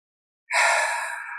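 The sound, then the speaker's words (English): A single deep exhaling breath, taken as a cleansing breath at the start of a guided meditation: a soft, airy rush of breath that begins abruptly after a short silence and slowly tapers while still sounding at the end. “let's take a few deep cleansing breaths to start. So exhaling everything out.”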